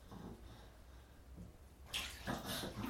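Water splashes as a child is washed in a bath, with a quiet stretch first and then louder sloshing bursts through the second half.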